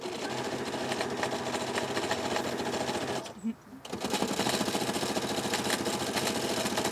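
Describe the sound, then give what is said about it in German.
Sewing machine stitching a pennant bunting during outdoor crafting, a rapid, steady mechanical whirring that pauses briefly midway, then resumes at the same fast rhythm. “Ich nähe jetzt hier gerade eine Wimpelkette.”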